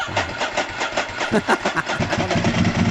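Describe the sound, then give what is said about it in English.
A dry-clutch motorcycle engine turns over and runs loud and alone with a lumpy, rapidly pulsing rhythm. “Now, that's a bike. Yeah, it's a bike for sure. That's a motorcycle. Dude, that's a dry clutch.”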